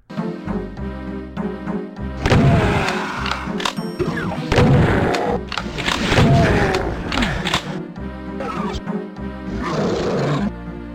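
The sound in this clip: Super shotgun blasts tearing through imps in a 1990s PC game. Several heavy booming shots mix with snarling, growling monster cries over a steady droning tone bed.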